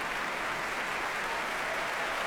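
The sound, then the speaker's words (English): Applause from a concert audience for a choir: a continuous, even wash of many hands clapping, steady in loudness from start to finish with no pauses. “He claps and applauds the choir himself.”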